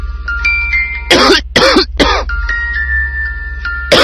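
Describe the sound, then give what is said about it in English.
Harsh coughing from someone whose cough keeps them from sleeping: three rough, loud bursts in quick succession, then another at the very end, over a faint, steady tonal backing. “When coughing won't let you sleep, take Synecdoche”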